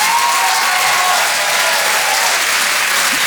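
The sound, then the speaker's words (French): Comedy club audience applauding, a dense, steady burst of loud clapping that holds evenly throughout the short stretch with no talk over it. “Je vous demande de faire un maximum de bruit, s'il vous plaît, pour Mélodie Fontaine.”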